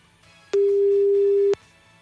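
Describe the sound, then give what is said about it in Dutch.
Telephone ringback on an outgoing call: one steady beep lasting about a second at a single mid pitch, over a faint low background hum, with no voices. “Dus even gaan bellen. De gelukkige. Kijken of we haar aan de lijn kunnen krijgen.”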